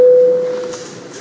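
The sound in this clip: An electronic tone signalling voting mode in a parliament: a single pure, mid-pitched steady note that fades out over about half a second, leaving only faint background noise.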